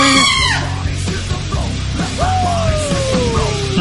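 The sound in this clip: A screaming goat sound effect lets out a couple of loud, harsh, bleating screams, each sliding downward in pitch, the last a long drawn-out wail.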